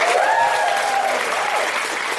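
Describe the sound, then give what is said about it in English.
A live theatre audience at Soho Theatre gives a loud round of applause, with dense, even clapping throughout and brief vocal cheers riding on top. “A huge round of applause for all of this incredible staff who's doing this round-the-clock stuff here for Shedinburgh at Soho Theatre.”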